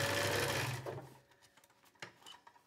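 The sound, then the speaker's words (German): A sewing machine stitches a second seam right beside the first on yellow-coated trousers, whirring in a steady, buzzing run for about a second before stopping, followed by a few faint clicks. “und jetzt hier direkt neben der ersten Naht noch eine zweite Naht gemacht. Denn dadurch wird unsere Hose insgesamt noch stabiler.”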